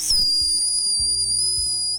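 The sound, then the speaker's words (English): A long, steady, shrill whistle sounds to stop a small, fast herding dog at a sheepdog brace competition. One unbroken high tone holds for about two seconds over faint low rumbles. “She's quite small, but she's going really fast. We just stop her on a long whistle.”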